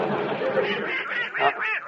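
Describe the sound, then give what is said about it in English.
Duck quacking, a steady run of raspy, nasal squawks that keeps going for the whole stretch at a fairly even loudness, with the later calls coming as sharper bursts. “Don't call that darn duck my son.”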